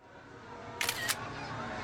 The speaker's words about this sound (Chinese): 齐昊天站在旋转木马外面，笑着给他们拍照。